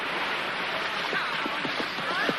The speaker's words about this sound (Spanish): ¡Vamos, modeos! ¡Que solo es un río! ¡No es un océano! ¡Adelante!